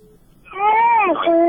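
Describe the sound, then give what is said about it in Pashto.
A baby cries during a caller's phone line to a radio show. A loud, tonal, whimpering wail builds from quiet and wavers in pitch, then settles into a sustained cry. “ل ماشوم یو څلری شي چې د ماشوم اوازم راځي لطفا کله چې رادیو سره خبري کوي نو یو داسې ځای دریږي یا کینې چې هلته غلمغل نوي.”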